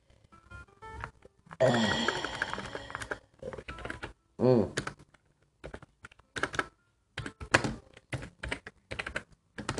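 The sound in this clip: Someone typing on a computer keyboard while writing a report, irregular bursts of clattering key clicks separated by pauses, with a voice and a sigh in between.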